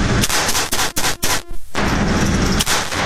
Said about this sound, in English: That is the Valcourtson Mamba. Okay. The 22 comped optic. Almost fires itself. Almost. Yeah. All right. All you got to do is hold it. Here we go. All right. Six rounds as quick as you can when the target faces.